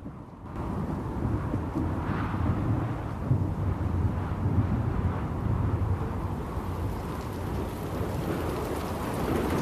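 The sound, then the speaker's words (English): Heavy rain pours steadily near a coastline as a continuous dense hiss, with a deep low rumble beneath it throughout. “On board the Eagle as she flies through the teeming rain, her feathers now slick with water.”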